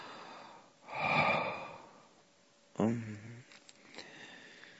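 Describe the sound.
Hot air breathed out in one long, breathy exhale, followed by a shorter, sharper breath sound like a soft snort. The breaths are fairly quiet, with no talk.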